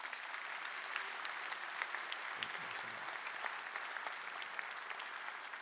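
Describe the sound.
A church audience applauds parents as they exit down the centre aisle, a soft, continuous patter of many hands clapping evenly throughout.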